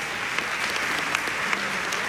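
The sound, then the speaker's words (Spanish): Applause for a soloist after a jazz-tinged contemporary orchestral piece: dense, steady clapping that holds at an even level throughout, with a few sharper claps standing out and no voices. “yo no había escuchado un aplauso tan emotivo para un solista”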